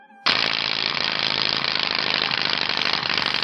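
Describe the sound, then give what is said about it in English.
A fast-spinning wheel makes a rapid, continuous clicking rattle, like a casino prize wheel. It starts abruptly and then runs loud and steady. “Now, that sounds like the big wheel in the casino that it's going to land on one. That's a bicycle spot.”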